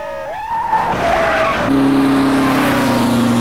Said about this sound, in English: The car veers off the coastal route, smashing into parked cars.